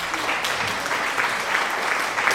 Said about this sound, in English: Oh, applause. Hit it. We'll play our applause.